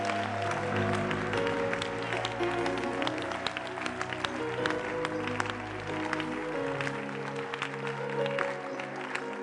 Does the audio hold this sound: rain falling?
no